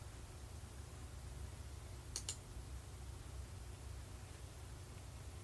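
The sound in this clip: Two quick, soft clicks of a computer mouse close together near the middle, standing out briefly against a faint, steady hiss.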